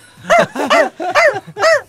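A pet malamute gives four loud, drawn-out barks in an even rhythm, each with a howl-like tone that rises and then falls in pitch.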